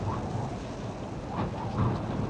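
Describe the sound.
Thunderstorm with strong wind over stormy seas: a steady, loud rush of wind and rain noise with low rumbling underneath throughout, no voices.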